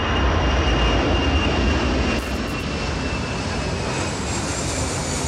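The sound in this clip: Airplane noise recorded inside a hotel room near an airport: a loud, steady engine roar that holds throughout, dipping slightly in level partway through and then continuing unbroken.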